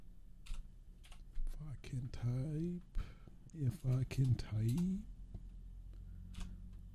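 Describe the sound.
Typing on a computer keyboard, with bursts of soft clicks at the start and end and a person talking through the middle.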